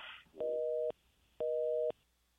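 A telephone busy tone follows a dropped phone line: two steady, identical two-pitched beeps of about half a second each, separated by a pause of similar length, heard alone after a brief noise at the start.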